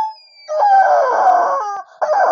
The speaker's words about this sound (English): my housemate at the time, Jared, got me this squeaky rubber chicken that sounds a bit like this.